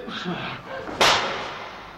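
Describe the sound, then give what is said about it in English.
One hard slap lands as a single sharp, cracking impact partway through, standing out clearly above a quieter background. “Sands slaps him hard again”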